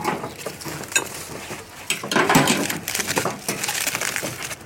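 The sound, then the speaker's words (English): A metal grill grate is lifted off during cooking over foil, giving a run of sharp metallic clanks, scrapes and rattles. Irregular bursts of clatter continue throughout, with a louder cluster near the middle. “Just removing the grate so that I can pull them off to the plates.”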